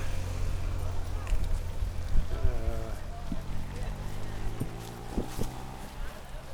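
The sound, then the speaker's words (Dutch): Police motorcycle engine idling during a No Border Camp demonstration, a low, steady rumble that runs throughout, with voices heard over it. “De motor die je hoort is een politie. Die ons natuurlijk intensief zullen begeleiden vandaag.”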